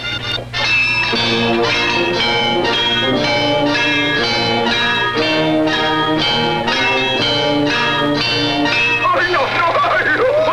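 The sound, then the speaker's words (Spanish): A bell signals the start of a tournament round, ringing with many evenly spaced, loud metallic strikes in a steady rhythm that holds throughout. “Ya los contendientes se encuentran en sus respectivas posiciones. Y aquí está la campana.”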